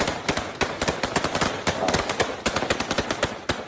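Gunfire crackles during a street riot amid looting and arson, as rapid, dense bursts of sharp shots repeat in fast, uneven clusters throughout, loud and unbroken, with no voices.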